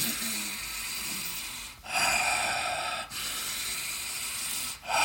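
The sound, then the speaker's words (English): Heavy, steady breathing during a breathwork exercise of in-and-out breath cycles: long, loud, airy inhales and exhales that run almost continuously, broken only by a few brief pauses. “And one cycle will be representing an in and out breath and do 100 cycles.”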